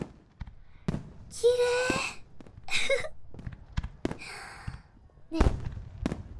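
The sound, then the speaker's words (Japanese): Fireworks launching and bursting: several sharp bangs mixed with dense crackling sprays that flare up and fade, one early burst carrying a brief steady whistle, with quieter gaps between the louder volleys. “花火っていろんな色と形があって、カラフルなビー玉の模様みたいだね。”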